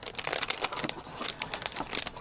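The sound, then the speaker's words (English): Crinkling plastic as a packaged collector's bag clip is torn open, a quick run of many small crackles and rustles at moderate volume. “Tear it open.”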